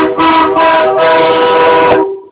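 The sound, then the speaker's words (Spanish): A train sounds its horn in one loud, sustained, steady blast that holds for about two seconds and then cuts off. “¿Es un tren?”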